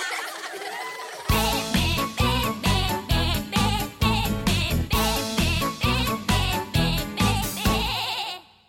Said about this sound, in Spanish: Abre la boca con mucho sigilo. Y para hablar, él hace un balido.